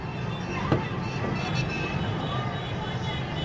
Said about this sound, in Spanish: Es un sonido indefinido que flota en el aire del Cairo. Esta es una ciudad ruidosa, es una ciudad bulliciosa, es una ciudad que se oye